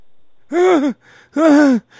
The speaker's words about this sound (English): I'm trying to catch my breath